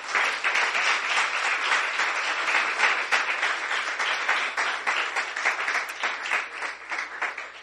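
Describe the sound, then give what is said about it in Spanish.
Congregation applauding during a church service: a dense, steady wash of clapping that holds at an even level for the whole stretch, with no pauses or voices above it. “Dale un aplauso al Señor, hermano.”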